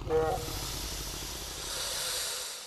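A dragon breathing in a fireplace, rendered as a sound effect: a loud, breathy hiss like escaping steam that swells at the start and then holds steady, with a soft low rumble underneath.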